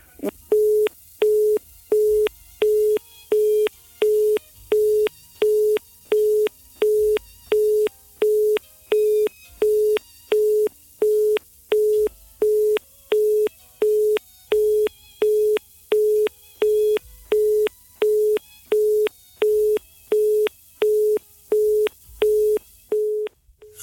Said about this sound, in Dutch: excuses, de telefoonverbinding werd verbroken.